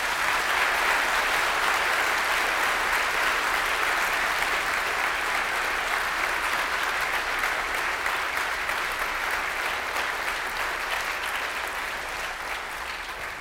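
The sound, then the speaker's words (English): An audience applauds a group of people named at a gathering. The clapping is dense and even, loud at first and gradually softening toward the end. “Now, it would be a good time to applaud the men and women.”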